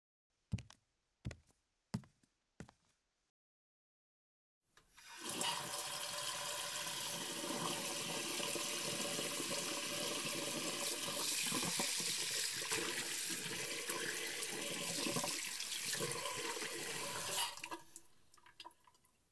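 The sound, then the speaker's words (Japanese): A tap runs into a sink while someone washes their face. A few short, sharp knocks come first, then a pause, then a steady rushing stream that lasts about thirteen seconds before fading out. “先に顔洗ってきて。”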